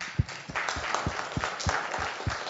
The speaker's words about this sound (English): Let's give all our visitors a hand of welcome.